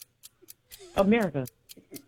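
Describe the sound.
A game show timer clock ticks steadily during a timed quiz round, with sharp, evenly spaced ticks about four per second and a voice speaking briefly over them.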